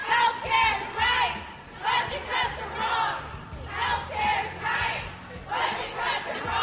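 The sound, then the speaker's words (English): Planned Parenthood protesters in downtown Los Angeles chant in unison against Governor Arnold Schwarzenegger's proposed California budget cuts. A loud crowd repeats a two-part slogan in steady, rhythmic bursts. “That's the sound of members of Planned Parenthood in downtown Los Angeles Tuesday, protesting Governor Arnold Schwarzenegger's proposed budget cuts”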